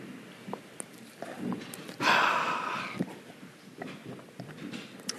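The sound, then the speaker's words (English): A deep breath during a guided meditation: one long, airy breath swells out of a quiet background, with faint small rustles around it. “And staying silent, come back to yourself and take a couple of deep breaths, releasing any tension you might be carrying.”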